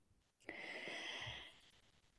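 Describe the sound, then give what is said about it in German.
A woman draws one short, breathy inhalation, a soft airy rush lasting about a second before trailing off into quiet, heard alone without talk. “Atmen muss ich kurz”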